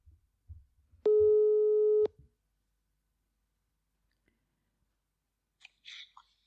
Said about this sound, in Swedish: Så vänta lite, jag ska ringa honom. Hoppas jag bara att han svarar också.